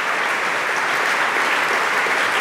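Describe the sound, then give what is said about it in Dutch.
Long concert applause from a classical audience as the performers take a bow, an even, dense wash of clapping that holds steady from start to finish. “Eén lang applaus krijgen ze hier. Een buiging.”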